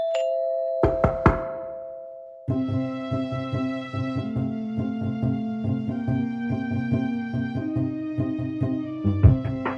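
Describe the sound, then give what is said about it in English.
Knocking on a door opens a song about arriving at a dinner party: a few quick, sharp raps sound over a steady held tone, then full music with a strong rhythmic beat takes over. “it starts with a knock on the door because you're going to a dinner party”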